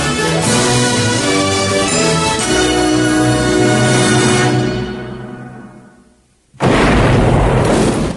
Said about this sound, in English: Daytime, a dusty explosion blossoms from a rock face, sending debris into a ravine by a prison quarry.